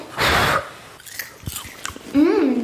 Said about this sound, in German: Wir haben einen ganzen Topf voll mit selbstgemachtem Popcorn. Probieren wir.